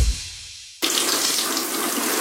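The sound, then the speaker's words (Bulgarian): Water is poured over a bathroom cabinet. A brief fading hiss gives way to an abrupt, loud, steady gush of splashing water that continues to the end. “Защо полия шкафа в банята?”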